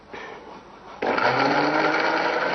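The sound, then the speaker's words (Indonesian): A kitchen blender whirs, blending a mixture with about 200 cc of water until smooth. The steady motor hum jumps after a quieter start to a louder, higher-speed whine that holds to the end. “blender sampai halus”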